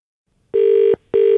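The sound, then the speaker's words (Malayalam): Telephone ringback on an outgoing call made by a radio station: two identical steady, mid-pitched tone bursts separated by a short gap, clean and alone with no voices. “ഞാൻ Kochi FM നിന്നാണ് വിളിക്കുന്നത്, phone out ഗാനോത്സവത്തിൽ നിന്ന്.”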